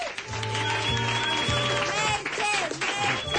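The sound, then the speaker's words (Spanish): Applause for a band: steady, dense clapping that runs through the whole stretch, with music sounding underneath. “Un aplauso para los Alcántara, por favor.”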